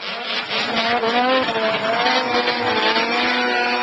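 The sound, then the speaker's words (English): Snow machines racing in the 42nd annual Alcan 200 road race outside Haines, Alaska, on a rough track with sparse snow, a loud, continuous high-revving engine whine with wavering pitch that stays strong throughout. “the 42nd annual Alcan 200, the longest snow machine road race on the continent. The ride took place on Saturday outside of Haines.”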